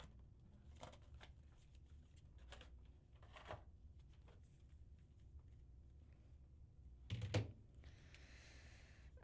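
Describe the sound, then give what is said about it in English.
Playing cards are picked up and handled in a card game, making faint scattered clicks and soft rustles, with a louder cluster of handling noise near the end. The whole stretch is quiet. “Let me just grab some of these cards so I can find point matches.”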